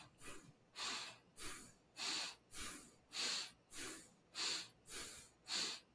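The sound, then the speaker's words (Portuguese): Rapid, rhythmic breathing from a person, demonstrating fast, short breaths: many evenly spaced airy, hissing bursts of similar loudness, with no talk. “Então a gente respira.”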